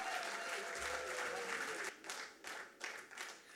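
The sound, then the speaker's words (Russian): Faint audience applause at a concert for young music-school performers in Minsk: dense clapping that holds steady at first, then thins into uneven swells. “Ваши аплодисменты, дорогие друзья.”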